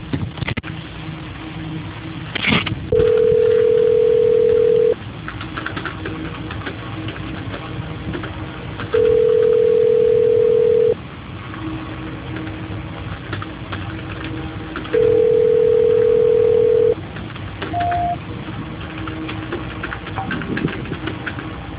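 A telephone line tone sounds during a call transfer: three long, steady mid-pitched tones of about two seconds each, spaced several seconds apart, then a short higher blip, all over a constant low background rumble.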